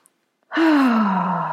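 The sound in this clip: A deep breath released as a long voiced sigh, steady and fairly loud for over a second, its pitch sliding gently downward as the air runs out.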